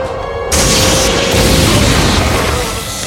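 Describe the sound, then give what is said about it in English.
An electrical overload zaps and explodes as a feedback pulse overloads a vessel's induction grids. A thin whine gives way to a loud, crackling roar that holds steady and then eases slightly at the end. “Okay, the number one guy gets kind of zapped here by an overload.”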